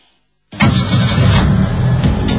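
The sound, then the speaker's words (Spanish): Fiat Punto car engine starting after a moment of silence: a sudden loud burst of rumble that settles into a steady, rough running sound until the end. “acá vengo yo en mi Fiat Punto y abro el techo de mi auto”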